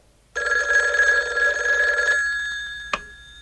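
A red telephone rings in one long, sustained bell-like burst that slowly fades, then a single sharp click sounds. No voices are heard.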